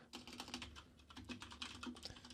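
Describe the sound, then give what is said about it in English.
Rapid typing on a computer keyboard while entering a search, a quick, steady patter of faint keystrokes with no pauses. “I can go to Amazon, and if I just go over there, I'm going to do it right now. And I just type, you know, LED stage light.”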